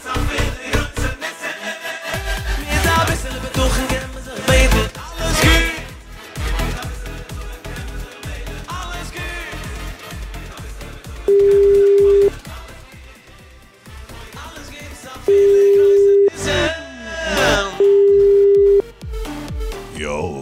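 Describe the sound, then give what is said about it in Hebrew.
Telephone ringback tone from a call placed on a radio phone-in: three steady mid-pitched beeps, each about a second long, sounding over loud music. “יאללה, חיוג ראשון.”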